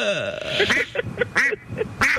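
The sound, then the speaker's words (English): A person imitates a duck with a rapid series of several nasal, honking quacks in an uneven rhythm, fairly loud and with no other talk. “Could you keep your quack down?”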